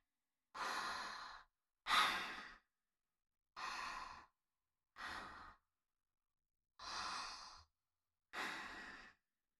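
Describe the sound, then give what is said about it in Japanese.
Six slow, deep breaths, soft and airy, each a breathy rush of air separated by short silent pauses in an even rhythm. “じゃあ、わかるまで深呼吸しよっか。ほら。”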